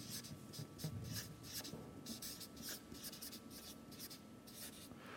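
Handwriting on a board as a Greek word is written out: many quick, faint scratching strokes follow one another in an uneven rhythm over a low background hiss.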